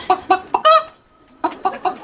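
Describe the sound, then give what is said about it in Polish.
A person vocally imitating a hen clucking: four short, nasal clucks, the last one drawn out, then a brief pause and three more clipped clucks, loud and alone. “Będę dzisiaj chciała przedstawić jednego z moich ulubionych ptaków, czyli kurę.”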